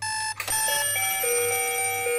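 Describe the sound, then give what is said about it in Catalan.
An alarm clock rings with bright, sustained electronic-sounding tones. A short click interrupts them near the start, and then the tones continue loud and steady, with their pitches shifting in steps. “Ets dels que fan servir despertador?”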